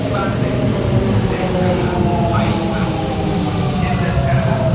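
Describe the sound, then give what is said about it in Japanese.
Trains pulling into a station, one arriving from the opposite direction, make a loud, continuous rumbling drone with a steady hum and rolling mechanical texture throughout. “あ、電車来た、反対側も来た。”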